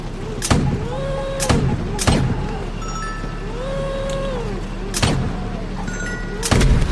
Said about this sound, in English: Shoot that gas tank.